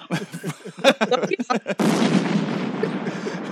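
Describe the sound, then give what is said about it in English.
A bomb explosion sound effect: after about two seconds of brief voices and chuckling, a sudden loud burst erupts into a sustained, roaring rumble that carries on steadily to the end. “Drop one of those bombs.”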